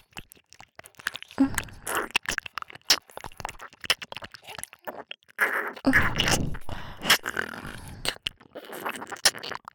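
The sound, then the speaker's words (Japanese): Close, wet mouth sounds of nibbling and biting on an earlobe: soft crunchy smacks, clicks and chewing noises in irregular bursts, quiet and intimate, with no speech. “お耳をハムハムしても、耳たぶを噛んでも、抵抗できないんですよ。”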